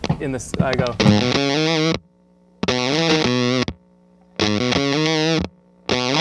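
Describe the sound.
Thick, buzzing guitar tone from a fuzz pedal with a noise gate. Loud sustained distorted chords ring out, and the gate cuts each one off cleanly into dead silence between bursts.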